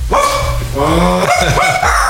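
A dog barks loudly several times in quick succession, sharp yapping barks with whiny pitch glides between them, crowding into a short burst.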